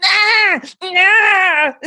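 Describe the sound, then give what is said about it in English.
An adult voice imitates a newborn baby crying in two loud, wavering, high-pitched wails separated by a short break. The second wail is longer and sinks at its end. “I'm going to do a baby now, okay? Newborn baby.”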